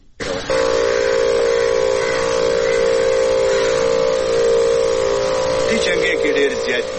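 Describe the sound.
A motorized insecticide spray machine, used against dengue mosquitoes, runs with a steady, loud mechanical drone and a strong tonal hum that continues unbroken for about seven seconds, with slight wavering near the end.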